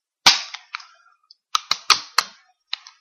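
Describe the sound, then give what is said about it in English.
Pistol shots from a Springfield 1911: sharp, loud cracks with short decaying tails, fired unevenly as a few spaced shots, then a quicker cluster, then two more near the end. “This is your Springfield 1911 right here, correct? Yes. This is the sound that makes you feel like an American.”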